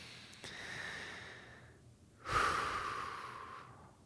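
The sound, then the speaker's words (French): Slow, deep breathing during a guided relaxation exercise: a soft, airy inhale followed by a louder, longer exhale that gradually fades, calm and unhurried. “Et pour que ça ne soit pas trop violent, et bien je vous invite à respirer profondément.”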